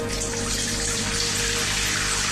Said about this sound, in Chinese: 先倒水啊